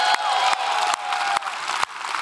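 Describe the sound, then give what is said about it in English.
A church audience applauding to welcome each other during a service: a steady wash of crowd clapping with a few brief dips in level. “can we just welcome each other together for a moment?”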